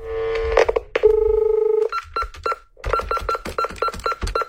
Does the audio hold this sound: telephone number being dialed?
yes

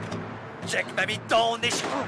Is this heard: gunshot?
yes

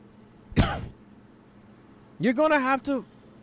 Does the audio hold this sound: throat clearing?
yes

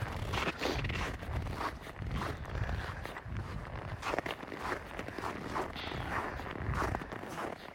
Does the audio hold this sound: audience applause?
no

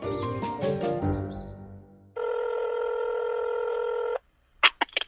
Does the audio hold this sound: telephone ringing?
yes

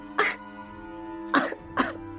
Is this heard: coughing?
yes

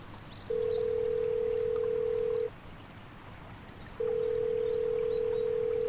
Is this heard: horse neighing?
no

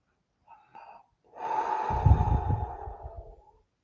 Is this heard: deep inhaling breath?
yes

